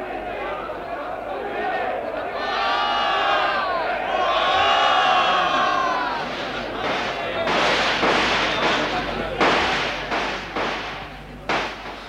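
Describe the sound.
Gunfire breaks out amid a shouting crowd during a violent uprising scene, with agitated voices swelling together. Several sharp, loud bangs burst through the clamor in the second half as the shouting carries on underneath.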